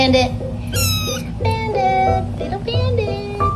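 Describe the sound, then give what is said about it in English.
A small cat, mostly white with a black, mask-like face, meows a few times in clear, high, wavering cries with short pauses between them. “Meowing on cue.”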